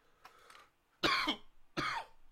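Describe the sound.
A person with a dry throat gives a faint throat sound, then two loud, harsh coughs spaced less than a second apart.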